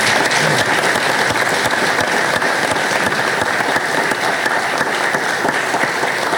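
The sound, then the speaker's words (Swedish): Audience applause: a dense, steady wash of many hands clapping at even loudness throughout, with no single voice standing out. “tycker de kan få en applåd till.”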